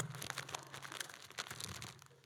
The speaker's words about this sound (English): Come on, let's hear those Bibles pages turning.